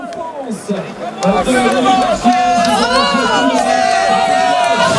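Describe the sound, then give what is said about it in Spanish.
Spectators at a cycling race podium cheer and shout in a dense, loud hubbub, with voices talking over the crowd throughout. “Se oye más al público que a él abrazándose con sus auxiliares.”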